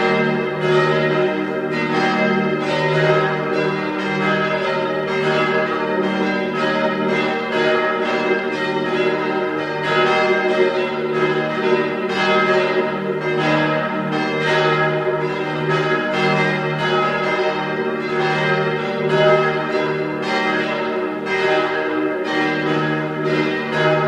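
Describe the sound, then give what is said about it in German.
Parish church bells in Vienna's 16th district ring out at noon, a loud, steady peal of many overlapping strokes with rich, sustained tones that carry on throughout without any voices. “Es ist 12 Uhr. Sie hören die Glocken der Pfarrkirche zur Heiligen Theresia im 16. Wiener Gemeindebezirk.”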